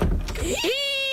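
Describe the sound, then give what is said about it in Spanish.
Squeaky door creak: a brief scraping rub that turns into a rising squeal and settles into a sustained high whine, lasting about a second. “Si tu puerta suena así,”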